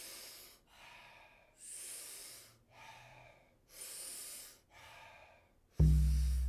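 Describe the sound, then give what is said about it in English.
Powerful rhythmic breaths drawn in through the mouth alternate with softer, relaxing mouth exhales, about three full cycles in a steady rhythm with no talk, then a sudden loud low thump at the end. “taking about 40 powerful breaths into the body through the mouth. And the exhale is a soft, relaxing exhale also through the mouth. We do it rhythmically. We do it together. It sounds like this.”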